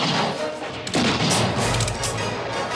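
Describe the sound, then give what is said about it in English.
A gunshot rings out in a film shootout, a single sharp blast about a second in that bursts into a sustained, noisy rumble and crackle lasting to the end. “He shoots one of Garrett's men but is hit himself. Billy's nearly hit, but the bullet flies just above his head.”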